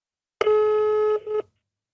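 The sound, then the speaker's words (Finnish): An electronic telephone dialing tone sounds as a call is placed: one long steady beep, then a brief gap and a shorter beep, clear and alone with no talk. “mä soitan”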